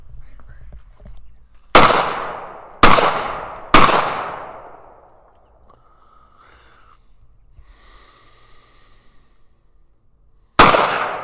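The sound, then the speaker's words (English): Four sharp gunshots from a semi-automatic gun: three loud cracks in quick succession, then a long pause and a fourth. Each shot rings out and decays sharply. “That was 5 shots. That throws a bullet right out of there, or the shell. Yeah, because it's an automatic, or it's a semi-automatic.”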